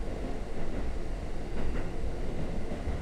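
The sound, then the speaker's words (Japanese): Low, continuous train rumble of carriages rolling along the rails, fairly quiet and steady with slight swells in loudness, heard alone without talk. “あなたを包む列車の音に耳を傾けて、”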